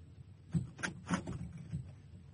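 A door being opened in a Turkish radio drama: a few soft clunks and knocks of handle and latch, fairly quiet against a low background hum.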